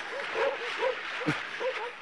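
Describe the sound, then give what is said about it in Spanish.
Several sled dogs bark and yip while swimming among ice floes, short strained bursts and whimpering cries repeating irregularly under a steady wash of water noise, with a voice shouting over them. “¡Dejen de ladrar y naden! ¡Naden!”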